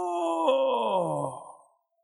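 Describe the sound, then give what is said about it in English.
A man's drawn-out groan as he gets up: one sustained, voiced moan of under two seconds whose pitch sags lower toward the end before it fades out. “The Bible says, "In this body we earnestly groan." I fulfill Scripture every morning when I get up. Well, it's time for me to be obedient to the Scripture.”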